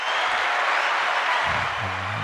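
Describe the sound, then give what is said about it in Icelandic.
Applause from an audience at a handball awards announcement for the season's all-star team: a steady, even wash of clapping that holds at the same level throughout. “það kemur í klapp, jú hérna”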